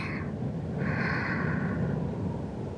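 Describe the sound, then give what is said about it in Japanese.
A slow, deep breath drawn in during a guided relaxation and meditation exercise, heard as a soft, airy rush that swells in the middle and lasts about two seconds over a low steady hum. “深呼吸しましょうか。息を吸って”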